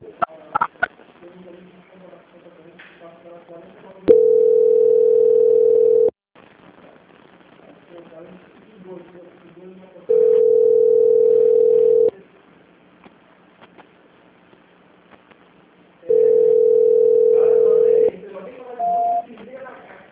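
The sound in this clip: A telephone tone sounds during a call transfer: three long, steady, mid-pitched tones of about two seconds each, evenly spaced, with quieter low-level sound between them.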